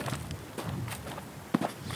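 Footsteps of a person walking toward the coast: a few soft, faint steps in a loose walking rhythm, the last one a sharper, more distinct footfall.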